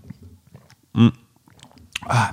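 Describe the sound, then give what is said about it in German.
Two people gulp down a shop-bought ginger shot, giving a few wet swallowing and mouth noises. Two louder voiced bursts stand out against quiet gaps. “Okay, gut, dann fangen wir mit dem Ingwer-Shot an. Den haben wir hier häufiger schon mal getrunken. Der ist aber sehr fest zu... Pass auf, wir trinken den mal eben.”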